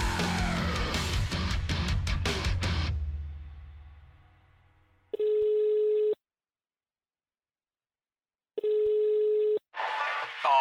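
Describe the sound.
Ringback tones on a telephone line during a call: two steady, low, buzzing tones, each about a second long with silence between. Loud music fades out before the first ring, and a voice starts right after the second.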